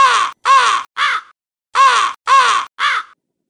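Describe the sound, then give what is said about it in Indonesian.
A crow caws six times, loud and harsh, in two groups of three evenly spaced calls separated by a short pause. “Itu adalah suara burung gagak.”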